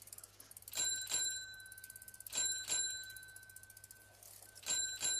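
A bicycle bell rings three times, each a quick double strike with a bright metallic tone that lingers faintly between rings.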